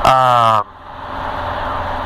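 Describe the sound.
A motor revving at high RPM gives a loud, steady harmonic whine, then cuts off abruptly and settles into a lower, quieter engine rumble as it is slowed down.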